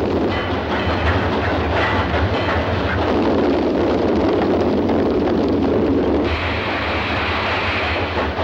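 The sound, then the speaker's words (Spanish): A train locomotive approaching on a railway, a loud, continuous rumble with rhythmic clickety-clack of wheels on rails running steadily from start to finish. “La locomotora se acerca.”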